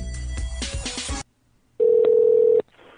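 A telephone keypad tone sounds while a number is dialed: a short burst of music, a brief quiet gap, then one steady, mid-pitched electronic tone held for nearly a second before cutting off.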